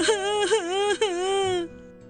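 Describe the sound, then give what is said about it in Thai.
A voice imitates a cartoon frog crying in a children's program, a high, wavering wail with a few sobbing swells of pitch that ends abruptly, leaving faint background. “กบอ้วนไม่ต้องร้องไห้แล้ว”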